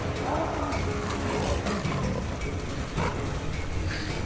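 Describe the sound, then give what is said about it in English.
A tiger roaring as it chases fleeing people. Rough, low roars and growls rise and fall over a dense, continuous rumbling background for the whole stretch. “They run. The tiger pursues them.”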